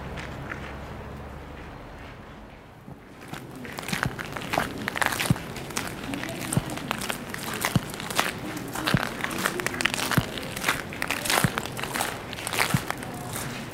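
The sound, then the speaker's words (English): Footsteps walking along a city street in Leicester, a steady, evenly paced run of sharp steps starting after a quiet opening and continuing over a low background hum. “So we've just started to walk up New Walk”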